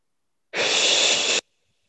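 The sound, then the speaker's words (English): A single deep breath: a steady, airy rush of air, loud and alone, lasting under a second and stopping abruptly. “One more deep breath.”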